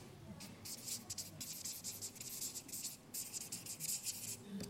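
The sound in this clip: Writing during a group discussion: many short, scratchy strokes in an irregular rhythm, faint, with soft voices present underneath.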